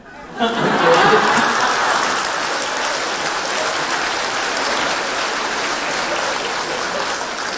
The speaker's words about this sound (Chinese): 谢谢堪布简短有力的回答，随缘，谢谢掌声。